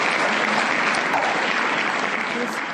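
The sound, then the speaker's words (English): Audience applause fills the whole stretch, a steady, loud, dense wash of many hands clapping at once with no break. “Let's give him one more hand, you guys.”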